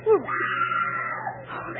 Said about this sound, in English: The scream came from near the animal cage